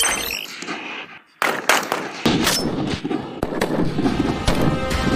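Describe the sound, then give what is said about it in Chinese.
Type 191 rifle gunfire at a shooting range in snow, fog and cold, with several loud, sharp cracks at irregular intervals over a harsh, noisy background. “191式步枪性能硬核，弹道精准。能颠勺的手扣起扳机来，照样弹无虚发。”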